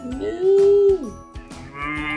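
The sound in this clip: A cow gives one sustained, fairly loud moo that bends downward at the end, set against a steady, rhythmic backing of soft taps.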